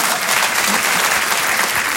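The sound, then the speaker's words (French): Audience applause during a comedy sketch, greeting an 84-year-old man: dense, even clapping that continues without a break for two seconds. “Ah, regarde, donc, on peut l'applaudir”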